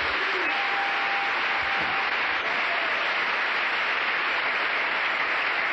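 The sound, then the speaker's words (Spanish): A church audience gives the Lord a round of applause, a continuous, uniform rush of clapping that holds at a constant, fairly loud level with no pauses. “Un aplauso al Señor.”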